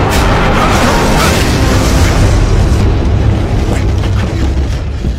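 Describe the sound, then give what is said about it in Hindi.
Incoming artillery shells explode in a dense, loud, continuous roar, with a few sharper bursts standing out from the sustained rumble. “कुछ गोले सीधे हमारी तरफ आ रहे हैं, तैयार हो जाओ।”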